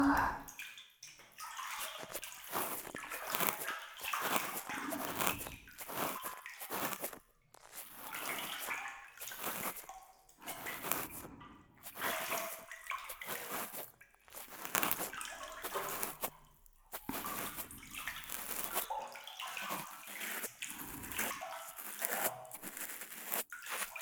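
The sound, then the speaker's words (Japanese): A cotton swab cleans softened earwax inside the ear, making many irregular, moist scratchy rustles and crackles that come in short bursts separated by brief silent gaps. “綿棒でふやけた耳垢をきれいにしていきますよ。”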